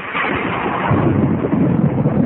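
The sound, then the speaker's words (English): Thunder makes a dense, continuous low roar for about two seconds, growing slightly deeper and fuller toward the end, with no distinct sharp crack. “Crack of the lightning.”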